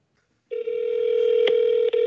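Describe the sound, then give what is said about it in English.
A Google Voice voicemail tone starts after a brief silence as a steady, held single pitch lasting about a second and a half. It is interrupted by two faint clicks. “State your name after the tone, and Google Voice will try to connect you.”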